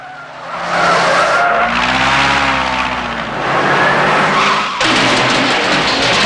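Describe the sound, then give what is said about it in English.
Engines roar and tires skid as a red car and a pickup race in a chase past parked planes and into a hangar. The loud, continuous engine noise has whining tones that rise and fall. “Bond weaves through a row of parked planes and turns into a hangar, pursued by the red car and the pickup.”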